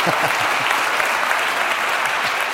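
Audience applause fills the room, a steady, dense clapping that holds at an even level from start to finish without pause.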